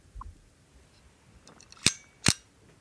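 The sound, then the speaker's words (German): Two sharp metallic clicks from a Zippo petrol lighter snap out in quick succession against a faint, quiet background. “Zippo. Das ist ein Zippo. Ein Zippo? Das klang wie so ein Benzinfeuerzeug.”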